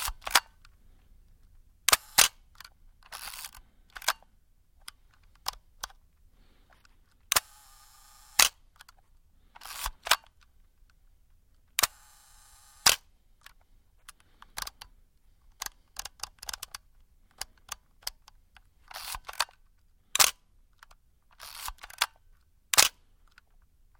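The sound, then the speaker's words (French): A film camera is wound and fired again and again. Many sharp shutter clicks and short, ratcheting winding bursts are separated by quiet gaps. “L'appareil photo. En tout cas, l'appareil photo argentique, c'est-à-dire avec tous ces bruits. Lorsqu'on l'arme, le déclic,”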